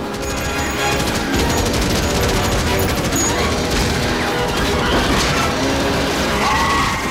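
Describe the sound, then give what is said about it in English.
Heavy gunfire hits a giant arachnid: a sustained, dense hail of rapid shots and crashing impacts, loud and unbroken throughout. “they opened fire, driving it back, blasting it into submission. It falls, kicking and writhing in agony under a hail of bullets.”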